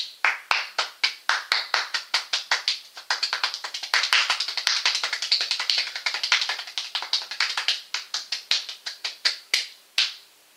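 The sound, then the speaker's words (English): Hands clapping in a rhythm: sharp, crisp claps repeat in a steady groove, crowd closer and faster through the middle, then space out again into separate, evenly timed claps near the end. “So when you do that, you want to clap, then you want to reverse it until you just start getting into a groove.”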